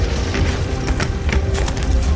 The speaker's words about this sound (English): The blast throws me far back several yards. I scramble back to my feet.